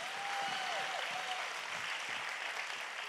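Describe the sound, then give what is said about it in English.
A church audience applauding: dense, continuous clapping throughout, with a thin whistling tone briefly riding over it early on. “And if you're glad to be in church, somebody put your hands together today.”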